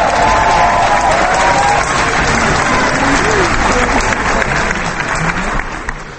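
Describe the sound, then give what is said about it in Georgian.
Audience applause and ovation for a Georgian dance performance: loud, dense clapping that holds steady for the whole stretch, with crowd voices blended into the continuous wash. “ის ხანდახან ტაშით თუ ახვებოდა ცეკვას. ხანაც უბრალოდ ოვაციას მართავდა.”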